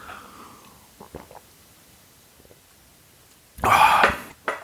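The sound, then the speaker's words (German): A big sip of a cold drink: one loud, gulping slurp lasting about half a second, followed by a shorter burst, after a stretch of near quiet with a few faint small noises. “Oh, das war ein großer Schluck, den ich genommen habe, weil es wunderschön kalt temperiert.”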